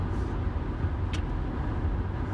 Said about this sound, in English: I need you to drive the van. I'm driving the van.